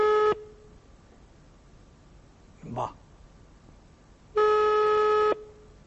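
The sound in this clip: A telephone busy tone plays after a dropped call line. There is a short steady beep at the start and a longer one near the end, with quiet line hiss in between.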